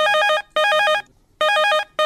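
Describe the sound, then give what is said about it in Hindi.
Loud, bright electronic ringtone from a telephone, sounding in four quick bursts separated by short gaps. Each burst is a pulsing chord of high tones, and no voices are heard. “आओ लेथन भैया मन के phone.”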